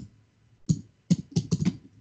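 Keystrokes on a computer keyboard as someone types out a question: a few sharp, fairly faint clicks in an uneven rhythm, a lone tap followed after a pause by a quicker cluster, with no voices.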